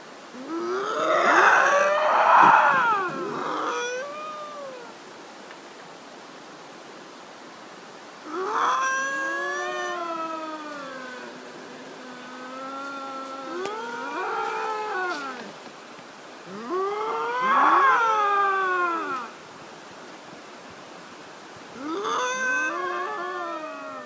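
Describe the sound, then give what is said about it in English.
Two lynx yowling in the woods, trading eerie, wavering cries in five drawn-out bouts separated by quiet pauses, the calls sliding up and down in pitch, loud and clear with no talking. “the second lynx came back out of the woods, sat down, and they started yowling again. This time I was able to get a much closer video and really capture the unearthly sounds.”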